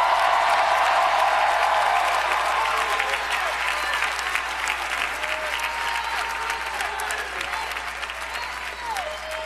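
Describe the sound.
A church audience applauding and cheering, a dense, loud, continuous wash of clapping with cheering voices mixed in, holding steady and easing off only slightly over several seconds.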